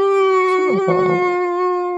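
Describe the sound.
A human voice imitates a dog whining and howling, holding one steady, nasal, high-pitched tone rich in overtones for about two seconds with little change in pitch.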